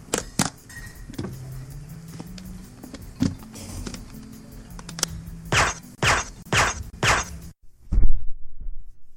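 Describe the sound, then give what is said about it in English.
A briefcase being opened in a video game: a low mechanical whir and scattered sharp clicks, then a run of several louder, evenly spaced clacks before a final thud. “Just let me open my briefcase.”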